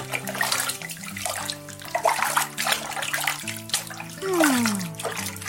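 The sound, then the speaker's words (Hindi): Running water from washing hands and face, a steady splashing rush heard over a melodic musical backing with stepped tones and one sliding tone. “ये है हाथ मुंह धोने की आवाज।”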